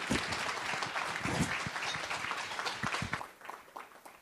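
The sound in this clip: An audience in Sacramento applauds to welcome Governor Jerry Brown at a journalism and environment gathering. The clapping is fairly faint and dense, holds steady, then thins into scattered claps toward the end.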